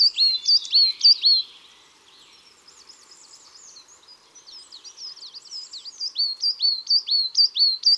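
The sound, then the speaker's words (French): Coal tit song in a conifer forest: thin, high, clear phrases of repeated two-note motifs, bright and distinct at the start, softer and more jumbled in the middle, then strong rhythmic repetitions again toward the end. “Dans la même forêt, s'il y a des résineux, on entendra sûrement la petite mésange noire et son joli chant.”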